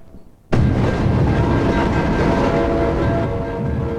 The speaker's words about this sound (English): As the last of a freight train passes, red warning lights stop flashing and a guardrail lifts.